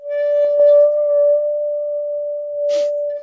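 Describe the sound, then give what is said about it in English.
Musical saw, 26 inches long, bowed on its non-serrated edge: a pure, sustained tone held at a steady pitch throughout, with a brief scratchy bow noise near the end. “And now I'm just going to bow the non-serrated side.”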